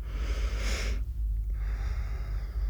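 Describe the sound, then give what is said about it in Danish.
A deep breath drawn in during a guided meditation: a soft rushing hiss lasting about half a second over a steady low hum, followed by near silence and faint background noise. “Så kan du tage en lidt dybere indånding.”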